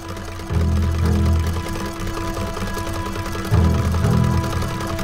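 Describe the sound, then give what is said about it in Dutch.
Sewing machine stitching as a woman sews, a low mechanical whirring that swells in two louder runs, one early and one near the end, over a steady quieter hum in between. “Ze is aan het naaien.”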